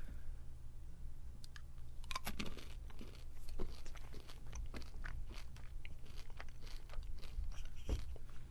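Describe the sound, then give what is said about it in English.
Crunching and chewing as someone eats a single blue M&M chocolate candy: a few crisp bites and clicky mouth sounds over a steady low hum, with no talk. “I'm not going to eat any other M&Ms after this one. I'm just going to eat one, so that way everybody's happy.”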